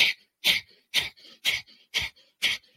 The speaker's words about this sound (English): you're taking breaths in, you're holding it, and then you're forcefully exhaling through your nostrils. So it goes like this.